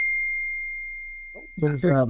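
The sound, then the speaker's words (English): A notification tone sounds as a single sustained pure beep that fades slowly over about one and a half seconds. A voice begins speaking right after it. “notification there. I'm not sure what that's all about”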